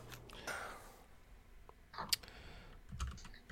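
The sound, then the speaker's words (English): Typing on a computer keyboard: faint, irregular clicks and taps scattered through a quiet background, with a few slightly louder keystrokes standing out. “I literally just typed Batman trailer under news.”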